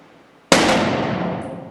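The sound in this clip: An M1 Garand rifle firing a single shot: a sudden, sharp, loud blast followed by a long, slowly fading roar, heard alone.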